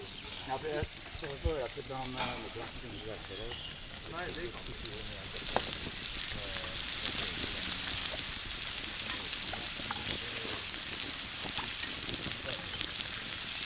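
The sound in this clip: Bacon frying with oregano and thyme, a continuous crackling sizzle that grows slightly louder partway through, with people talking over it in the first few seconds.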